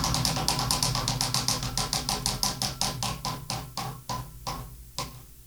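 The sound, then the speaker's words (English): A prize wheel being spun, its pointer ticking rapidly at first and then gradually slowing, so the many sharp clicks spread further and further apart. “We are spinning the wheel. Give it a spin.”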